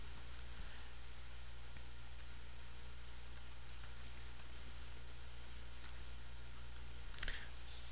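Faint computer keyboard keystrokes as code is typed: scattered, irregular clicks over a steady low hum, with a slightly louder cluster near the end.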